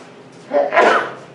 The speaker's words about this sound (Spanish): Perdón. Hasta estornudé.